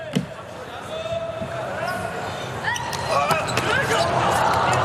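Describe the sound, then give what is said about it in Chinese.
A volleyball serve is struck during an international match right after a timeout, giving a short sharp thud near the start, with steady crowd noise that swells toward the end and a voice over it. “美国队叫暂停，这应该是本场比赛开始以来美国队就是用时最长的一次暂停。罗马诺的发球”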